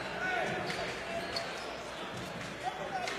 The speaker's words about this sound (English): Burton takes three dribbles, spins the basketball in the left hand, shot it, and missed it.